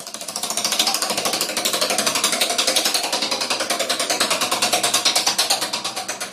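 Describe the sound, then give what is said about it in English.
A prize wheel spins with rapid, regular ratchet-like clicking that keeps a steady, fast rhythm at fairly even loudness for the whole stretch. “So let's go to the wheel.”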